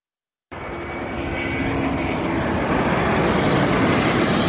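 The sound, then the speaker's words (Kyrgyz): A firefighting aircraft's engine drones during a wildfire near Manavgat, Turkey. It starts abruptly after a moment of silence and holds as a loud, steady, broad roar that swells slightly over several seconds. “Манавгаттагы өрттү Түркиянын төрт тарабынан 19 өрт өчүргүч учак, миңдеген кызматкер өчүрүп жатат.”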